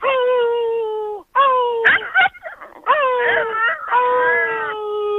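A young puppy under four months old whimpers for milk. It gives several drawn-out, high, tonal whines with short breaks between them, and they sound loud and plaintive with nothing else heard.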